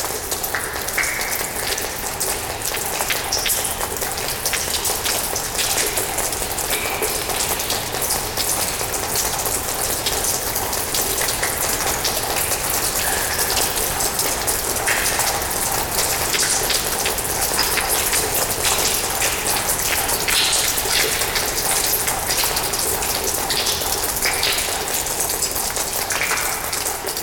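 Water drips and patters inside an ice cave with ice on the floor and all around, a dense, steady spatter of countless drops that runs evenly throughout without voices.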